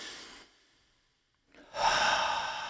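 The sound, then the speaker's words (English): A deep breath drawn by a frightened girl steeling herself to be brave: a short breathy rush fades into silence, then a louder, sustained airy breath swells and holds to the end. “She took a deep breath.”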